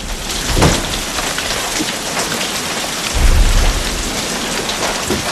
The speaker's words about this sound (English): closes an open window against the lashing rain